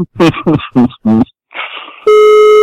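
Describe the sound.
A telephone line tone sounds when calling Venus Garden. A few short voice-like bursts come first, then a loud, steady, buzzy tone starts abruptly and holds to the end.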